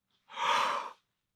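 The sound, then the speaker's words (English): A single sharp inhale, a man's first breath in a dark, silent tomb: a short breathy rush of air lasting under a second, sounding alone against silence. “his first breath. Just imagine what that sound was like.”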